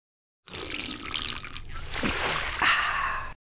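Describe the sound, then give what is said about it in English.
Liquid splashing onto the floor: a continuous splattering, gushing stream of about three seconds, steady and fairly loud throughout with no talk. “All the liquid you're trying to drink keeps going through you and ending up on the floor, and then I have to mop it up.”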